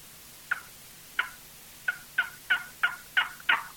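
Turkey yelps and clucks made on a box or slate call: eight sharp, high, raspy notes with no other sound. The notes start well apart and come closer together toward the end.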